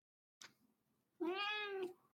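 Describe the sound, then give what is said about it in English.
A cat lets out one drawn-out, angry meow with a tonal voice that rises slightly and then falls. It is quiet overall, and a brief soft rustle comes shortly before it. “Is that a cat? That's a cat.”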